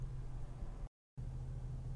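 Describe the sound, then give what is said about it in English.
Car air conditioning running in a parked car: a steady, even blowing hiss with a low hum beneath. The sound cuts out to silence briefly midway, then resumes unchanged. “You're definitely going to hear the AC”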